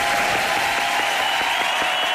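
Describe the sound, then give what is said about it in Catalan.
Steady applause honouring a record set in Valls, tied to a calçot celebration on a windy day: dense, even clapping that continues unbroken throughout, with no talk on top. “et dediquem des dels taloners aquest aplaudiment per fer aquest rècord a Valls.”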